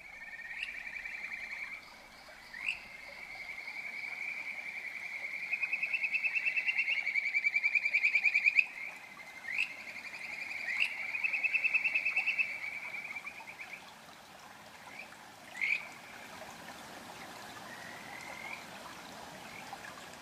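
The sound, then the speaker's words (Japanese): Kajika frogs (Buergeria buergeri) calling by a stream: a sustained, high, warbling trill runs for many seconds with brief chirping notes mixed in, then shorter calls follow over a constant watery hiss. “いやーこれもいいな、 いい声ですよね。 カジカガエルは最高ですね”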